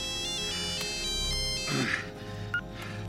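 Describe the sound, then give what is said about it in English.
A mobile phone ringtone plays from a phone just dug out of a pile of fresh, steaming dung, a steady tonal melody held at even loudness throughout with no talk. “She digs out the phone and passes it to Alan, who answers it.”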